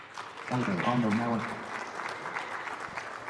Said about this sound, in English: Well, thank you, all of you, for your information and enlightening us. So let's give all of them a hand.